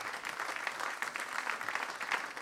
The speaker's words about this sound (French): On peut acclamer Jésus le roi ce matin. Acclamons le roi comme des pentecôtistes.